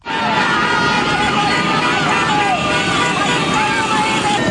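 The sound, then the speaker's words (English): A street demonstration in Caracas, Venezuela, with dozens of cars and motorbikes full of flag-waving demonstrators. A loud, steady, dense roar of crowd voices and traffic noise continues unbroken throughout. “What you're hearing there is the sound of dozens of cars, motorbikes and the like, full of demonstrators, waving giant flags and banners in support of Ms. Machado.”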